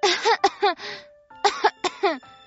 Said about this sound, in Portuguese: A flor tossiu.